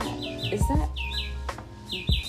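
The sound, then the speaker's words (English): Bird chirping: a string of short, high, quick chirps repeating in bursts over a low, steady background. “The bird is trying to tell me if I should say it or not.”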